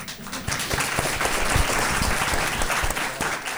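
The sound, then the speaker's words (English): An audience applauds a panel of speakers at a live event. The dense clapping stays fairly loud and even, and single sharp claps stand out within the wash. “Please give a round of applause to our panelists. And also to Dan for asking such a wonderful question.”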